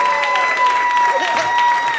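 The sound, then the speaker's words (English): A round of applause from a crowd, dense clapping that holds steady for a couple of seconds with some tonal sounds running through it. “Give yourselves a round of applause for sitting through this whole thing.”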